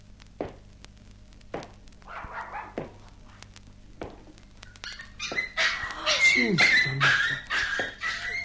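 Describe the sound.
Two puppies whimpering and yelping: many high, thin cries and short yips that grow busier and louder toward the end, mixed with voices.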